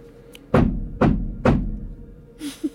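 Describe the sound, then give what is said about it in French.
Three heavy knocks answer a call to a spirit during a séance in a house, evenly spaced dull thuds, followed by a couple of faint softer sounds. “Monsieur Splitfoot, trois coups.”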